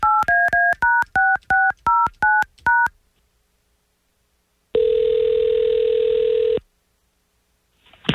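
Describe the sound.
Telephone number dialed on a touch-tone keypad, a rapid run of short two-tone beeps, then a pause and a single long, steady ringing tone as the call connects, with the start of another ring at the end.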